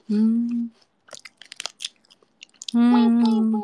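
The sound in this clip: Chewing tentacles in oyster sauce: a run of crunchy, wet bites and mouth clicks, sitting between stretches of sustained voice at the start and the end.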